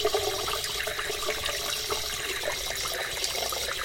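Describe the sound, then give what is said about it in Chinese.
Running water from a shower as someone rinses off, a continuous splashing, trickling rush at a moderate, fairly even level, with no voices over it. “他不会偷看我洗澡吧？赶紧冲！”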